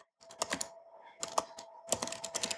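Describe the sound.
Quiet, rapid clicking of a computer keyboard as code is typed during a programming session, coming in three bursts of keystrokes split by short pauses.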